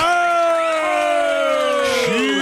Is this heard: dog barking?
no